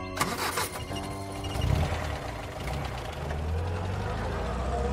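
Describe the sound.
A car engine starts as a sound effect in an audio drama, with a gentleman driving the car himself. A sharp start is followed by a steady low rumble that builds slightly and keeps running throughout.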